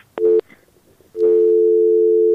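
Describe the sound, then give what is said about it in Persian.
A telephone busy tone sounds after a caller's line disconnects on a phone-in call: a short loud beep, a brief gap, then a longer steady tone that runs to the end. “خب فکر میکنم تماس شنونده ما قطع شد.”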